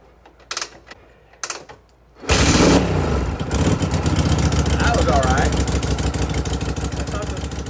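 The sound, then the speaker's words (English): After a near-quiet start with a few soft knocks, a Moto Morini 3.5 motorcycle engine fires into life with a sudden loud burst and settles into a steady, crisp staccato idle. “on the first attempt, Blaine's new Moto Marini 3.5 fired into life with a crisp staccato”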